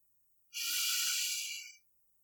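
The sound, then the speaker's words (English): A single deep inhale, a soft airy rush of breath that swells quickly, holds steady for just over a second, then fades out, heard alone against silence. “Inhale deeply.”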